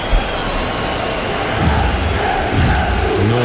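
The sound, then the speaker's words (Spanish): Football stadium crowd roaring before a match during a pause in play, a loud, dense and continuous roar of massed voices with swelling surges and no break. “Enciende al público la pausa. Madre mía, qué ambiente. Madre qué mía, barbaridad. Qué ambiente previo de partido.”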